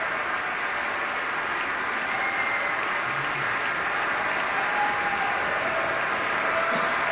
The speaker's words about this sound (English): And continuing applause as Alexander Shelley acknowledges various members and sections of the orchestra.